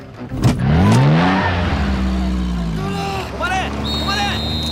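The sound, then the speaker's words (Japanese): A car engine revs hard as the car forces its way out and drives off, a loud surge early on followed by a steady roar, with people's voices heard over it. “たった今、院長の車は無理やり出て行きました。”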